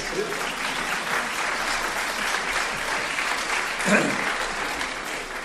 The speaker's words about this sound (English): May I say one thing, that is, my translator needs an applause, but give that at the end.